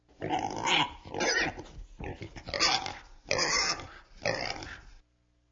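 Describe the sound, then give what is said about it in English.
Pigs oinking: several rough, throaty grunting bursts in a steady rhythm, each about half a second long, fairly loud, ending in quiet. “Pigs oink.”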